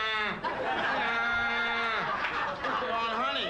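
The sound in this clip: A man's voice imitating a donkey's bray, a loud, drawn-out, strained call with wavering pitch, heard alone.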